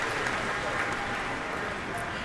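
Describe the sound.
Concert audience applause calling a pianist back to the stage for another bow at an outdoor pavilion in Millennium Park, Chicago: a continuous, even roar of clapping with no break.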